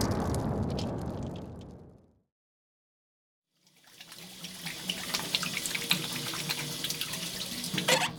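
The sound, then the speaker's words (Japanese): Water runs from a tap into a sink as someone washes their face: a steady rushing flow that stops for about a second and a half, then resumes as a brighter, noisier spray with small splashes. “お顔を洗ってらっしゃい。”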